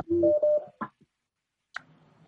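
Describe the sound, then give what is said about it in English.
An incoming call tone on a phone line: two short, steady electronic beeps, followed by a brief click and a stretch of faint line noise. “Oh, I think there's a phone coming in.”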